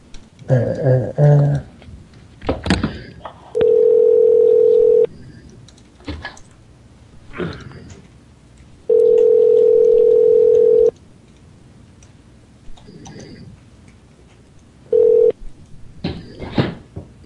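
Telephone tones while a number is being called: three steady, mid-pitched tone bursts, two long and one brief, separated by quiet stretches of clicks and tapping on a keypad or keyboard.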